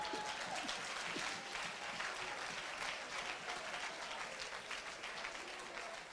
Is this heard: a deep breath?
no

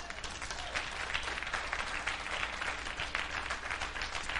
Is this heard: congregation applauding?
yes

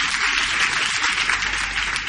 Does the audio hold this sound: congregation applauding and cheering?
yes

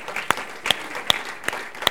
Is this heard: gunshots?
no

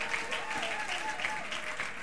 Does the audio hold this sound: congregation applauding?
yes

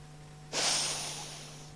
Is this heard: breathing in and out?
yes

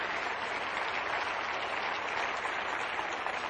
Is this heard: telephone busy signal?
no

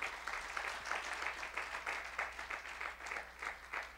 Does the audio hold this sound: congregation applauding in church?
yes

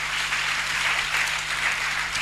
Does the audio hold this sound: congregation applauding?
yes

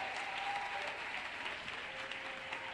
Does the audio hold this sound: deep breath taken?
no

